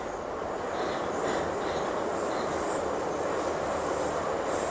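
Metro train running on rails, a steady loud rumble and hiss with faint high wheel squeals over the top, continuous and unbroken with no voices.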